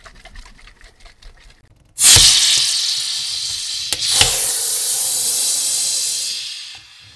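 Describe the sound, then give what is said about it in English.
A shaken soda bottle is opened with a sudden loud hiss of escaping gas. Fizzing from rising bubbles follows and holds steady for several seconds before cutting off. The start is quiet, with only faint rattling. “That was the sound of shaking, then opening, a bottle of soda, creating lots of bubbles and fizzing.”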